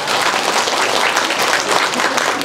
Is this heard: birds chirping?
no

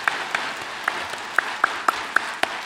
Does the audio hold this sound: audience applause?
yes

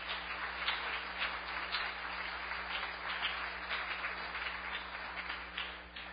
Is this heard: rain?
no

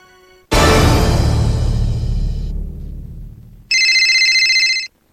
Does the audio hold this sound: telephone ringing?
yes

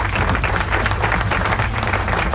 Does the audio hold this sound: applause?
yes

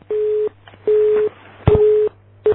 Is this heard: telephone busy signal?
yes

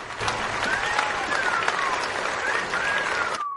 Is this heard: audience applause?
yes

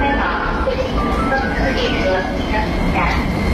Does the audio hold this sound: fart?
no

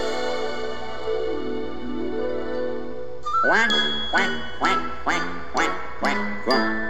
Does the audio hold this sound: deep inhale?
no

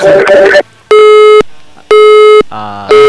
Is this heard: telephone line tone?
yes

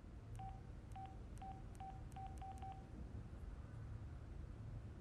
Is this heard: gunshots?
no

